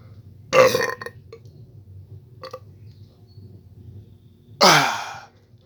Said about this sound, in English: Excuse me, folks, for being so bold. But that was a burp I could not hold.